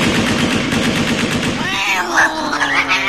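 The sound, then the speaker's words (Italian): An AK-15 assault rifle fires into the air: a loud, rapid, continuous rattle of automatic shots lasting under two seconds, followed by a wavering, whining tone after the burst stops. “spara 200 colpi in aria con questo AK-15.”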